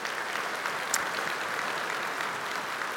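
Ridgecrest audience applauding during a church service to welcome viewers watching online: an even wash of many hands clapping, steady and moderately loud, with no voices.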